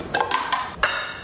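Kitchen sounds from an ASMR video of making a salmon rice bowl with rice, mayo, hot sauce, soy sauce and avocado, with a few soft clinks and scrapes of utensils against a dish.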